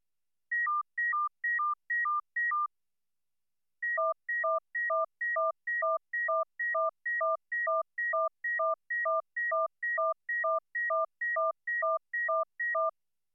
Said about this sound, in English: Then C is added, exactly synchronous with B. Can you still hear the high tone sequence, or is the fusion too strong between the second high tone and its low tone companion?